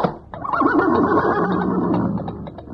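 A horse neighs in one long, loud whinny with a shaking, wavering pitch that tapers off toward the end.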